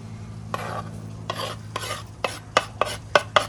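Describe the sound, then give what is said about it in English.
Chopped kale, red cabbage and red and yellow peppers are tipped and stirred into a dish. Many short scraping, rustling strokes come quicker and sharper toward the end over a faint low hum. “We're adding to that kale, red cabbage, nicely chopped, red pepper, yellow pepper,”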